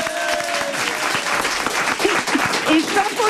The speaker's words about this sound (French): Ah, et tout le monde bien, va t'applaudir hein. Ici. Bravo.